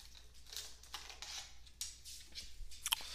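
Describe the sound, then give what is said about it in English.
Crinkling and crackling of a plastic Gatorade bottle as a husky plays with it, several faint bursts of brittle, high rustling separated by short pauses. “Got a husky with a Gatorade bottle wanting to play.”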